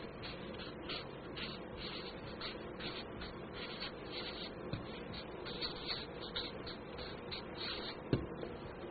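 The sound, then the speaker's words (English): Faint handwriting as an exercise is written out, quick repeated scratchy strokes in a steady rhythm throughout. “now let's write this exercise”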